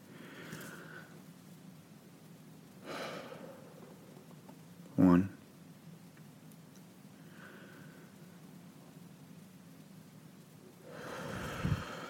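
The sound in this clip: A few faint, slow deep breaths taken as a short relaxation exercise, separated by quiet pauses, with a brief louder thump partway through.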